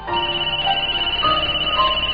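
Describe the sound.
A mobile phone rings with an electronic ringtone: steady, bright synthetic tones over a quick, regular pulsing beat, loud and continuous with no voices.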